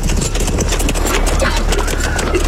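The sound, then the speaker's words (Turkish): Horses approach carrying riders, many rapid hoofbeats blending into a dense, loud, steady clatter with a low rumble beneath. “Atlılar geliyor efendim. Atlılar.”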